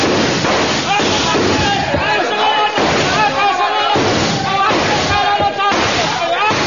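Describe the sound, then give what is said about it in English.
A volley of rifle gunfire by soldiers in a radio drama battle scene, a dense, continuous clatter of many shots and bursts with voices beneath it. “Your stations, men! Your stations! Ready! Aim! Fire!”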